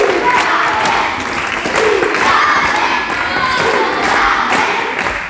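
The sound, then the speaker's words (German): Over 150 primary school children cheer at a concert staged in their own school, a dense, loud, continuous roar of young voices shouting and yelling with no break. “Was nämlich sonst wirklich auf den ganz, ganz großen Bühnen stattfindet, das haben gestern über 150 Kinder in ihrer eigenen Grundschule erleben dürfen. Und die Reaktion, die fiel ungefähr so aus.”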